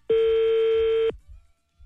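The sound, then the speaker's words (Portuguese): Phone call ringing tone: one steady mid-pitched tone lasting about a second, then quiet with faint low noises. “Vamos ligar pra ver o que aconteceu, né? Vamos ver.”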